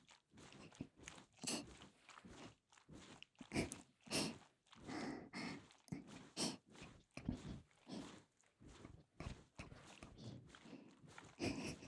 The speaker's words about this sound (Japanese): 爪を立てた方がもっと気持ちいいですかね。ほら、こうやってカリカリカリカリカリ。